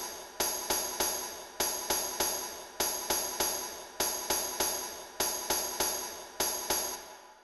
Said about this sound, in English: And I also put in the tambourine, which has a rhythm that sounds like this.